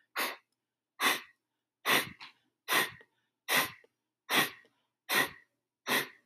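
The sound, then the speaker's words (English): Eight sharp, forceful exhales through the nose as part of a breathing exercise. Each is a short, breathy burst, evenly paced just under a second apart with silence between them. “Imagine that you felt a little bug go up your nose and you're now trying to force it out.”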